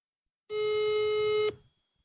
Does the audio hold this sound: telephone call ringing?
yes